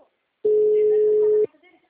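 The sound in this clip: A single steady telephone tone sounds for about one second on an unanswered call, a flat, even beep with faint voices just before and after it.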